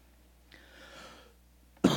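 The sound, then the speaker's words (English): A sudden loud cough from someone with a sore throat bursts in abruptly near the end, after a quiet stretch with only faint sound. “I woke up this morning with a really sore throat, so excuse me for coughing.”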